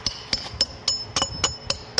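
A small hammer taps traditional tiles in a tile-making workshop at the Great Mosque of Herat. The taps are light and sharp, evenly spaced about a quarter second apart, and continue steadily throughout.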